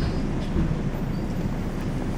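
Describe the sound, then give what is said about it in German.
A bus pulls away from a bus stop with a loud, steady low engine rumble that runs evenly through the whole clip, with no clear rise or fall. “Das ist eine Bushaltestelle. Und jetzt fährt er ab.”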